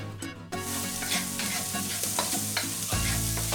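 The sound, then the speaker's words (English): Butter is stirred into a sizzling pan sauce left from cooking mussels. A steady frying hiss runs throughout, with repeated stirring and scraping strokes on top and no talk. “I'm going to let them cool down a little bit, and I'm going to start mounting my sauce with butter.”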